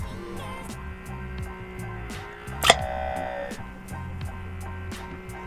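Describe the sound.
A suction sex toy with vibration, a heavy male masturbator device, strains and sucks with a low steady motor hum and evenly spaced faint ticking pulses. A single brief, sharp smacking burst stands out midway.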